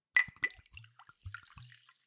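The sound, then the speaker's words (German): Tea poured into a cup: faint, brief liquid splashes and trickles with a couple of sharp clinks at the start, heard alone and quietly. “Ich gieße mir jetzt erstmal eine schöne Tasse Tee ein.”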